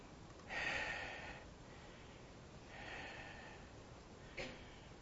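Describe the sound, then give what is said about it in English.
A person breathes audibly into a microphone while recording spoken tapes. Two faint, drawn-out breaths are separated by quiet, and a short sharp intake of breath follows near the end. “I have to apologize to those that have to listen to me breathe on the tapes. It's got to be disconcerting, I imagine.”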